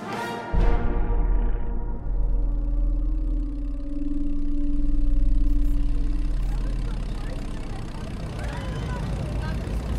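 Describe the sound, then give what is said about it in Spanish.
An airplane engine running in flight gives a low, continuous droning hum that swells slightly midway, with talk over it. “El aeroplano no cuenta con salida de emergencia, por lo que le solicitamos atender mis indicaciones en situaciones de pérdida de algún motor o caída libre. Bienvenido a bordo del Meridiano Fantasma.”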